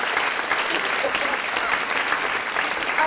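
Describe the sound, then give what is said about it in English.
Studio audience applause welcoming a guest, a steady, dense clatter of clapping that carries evenly through the moment, with voices faintly mixed in. “Wait a minute, hold on. I got to give you an applause, okay?”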